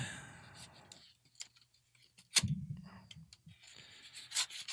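A knife slicing open a package, heard as faint, irregular scratchy rubs and small sharp clicks with quiet gaps between them.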